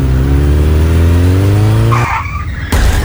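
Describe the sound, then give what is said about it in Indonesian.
A motorcycle skids and crashes: a loud engine drone climbs in pitch, then breaks into a brief, harsh tire screech. A short burst of noise follows it. “Aduh, yang kok kamu bawa motornya gak bener sih? Jatuh kan?”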